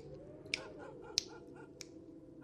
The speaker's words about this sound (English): So, let's let's snap my fingers and get into this here.